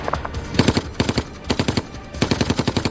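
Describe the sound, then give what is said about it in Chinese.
A German machine gun fires across a town square in urban street combat: several loud, rapid bursts of sharp shots with short pauses between them. No voices are heard. “广场对面的一名德国机枪手挡住了他们前进的道路。”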